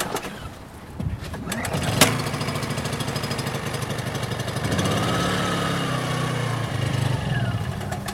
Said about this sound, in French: Et nous on a de la chance parce qu'on a quand même un générateur assez silencieux.